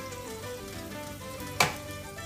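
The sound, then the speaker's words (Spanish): Chorizo sizzling on a hot griddle plate: a steady, crackling sizzle runs throughout, broken by one sharp burst partway through. “Voy a coger el plato para hacerlo aquí cerca y que no, que no suceda esto más de lo que debe. Cojo el chorizo, lo echo al plato.”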